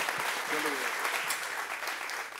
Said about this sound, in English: Give these wonderful folks a round of applause again.